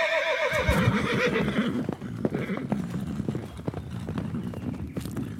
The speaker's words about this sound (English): And with that, the king and his army rode away.